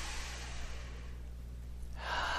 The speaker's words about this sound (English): Okay, nice breath in.